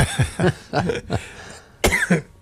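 Coughing fit from a person who got a flake of Danish pastry down the wrong way: a run of sharp, throaty coughs in uneven bursts, several close together, then a pause before two final hacks.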